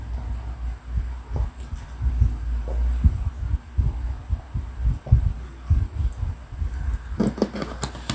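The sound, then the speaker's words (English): A Dalek time machine gives off a low throbbing hum, steady rhythmic pulses beating throughout, with a brighter burst of noise near the end. “Dalek time machine.”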